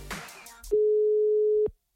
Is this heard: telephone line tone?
yes